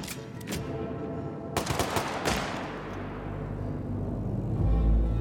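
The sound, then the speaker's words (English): A firing squad of hired Moroccan gunmen fires a volley of gunfire in a prison yard. A few sharp, loud cracks come in quick bursts, followed by a steadier low rumble that swells toward the end. “The hired Moroccan gunmen of the firing squad raise their weapons.”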